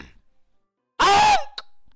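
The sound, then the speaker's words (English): A voice imitates the throat clearing of a blue feathered bird Pokemon standing at a podium: one short, rough, harsh burst, followed by a faint brief blip. “a blue feathered bird Pokemon is now standing at the podium and clears its throat.”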